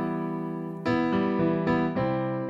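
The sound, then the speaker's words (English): An E minor chord sustains, then changes to C major, with the new chord struck again a few times in a steady rhythm at an even, moderate volume. “Here's the difference. If we go from E minor to C major, it sounds like this.”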